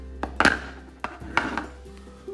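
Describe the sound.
The lid of a cup is unscrewed, giving several quiet, sharp clicks and small scraping taps spread unevenly over a couple of seconds, faint against a near-silent background.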